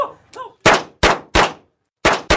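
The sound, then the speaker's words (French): Gunshots at a sport shooting range in suburban Rio: five sharp, loud reports at uneven intervals, the last two close together, after a few fainter sounds at the start. “Dans ce stand de tir sportif de la banlieue de Rio, tous se disent prêts à sortir armés, tous sauf Armando”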